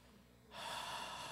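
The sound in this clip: A man exhaling, a soft, breathy rush of air that starts after about half a second of near quiet and holds steadily to the end.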